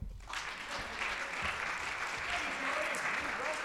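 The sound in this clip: Audience applause welcomes a guest speaker to the stage. The clapping starts abruptly and stays dense and steady throughout at a fairly soft level.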